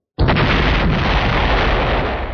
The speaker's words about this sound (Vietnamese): Một tiếng nổ mạnh kinh thiên động địa truyền đến